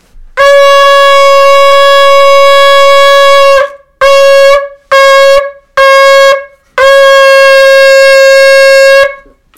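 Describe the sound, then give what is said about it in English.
A shofar, a ram's horn, is blown in five loud blasts of a bright, harmonically rich tone held at a steady pitch: one long blast, three short ones in quick succession, then another long blast. “The sounds of the shofar. It's a sound which stirs us to tshuva.”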